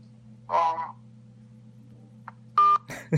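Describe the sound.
Telephone keypad tones sound as a number is dialed to call back, with a few short electronic beeps over a steady low hum and a brief voice sound at the end.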